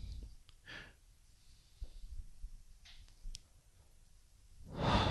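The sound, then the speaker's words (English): A deep breath drawn in during a relaxation exercise: a loud, breathy inhale swells near the end after a mostly quiet stretch with faint scattered sounds. “And all we have to do is take a nice, strong, deep breath in.”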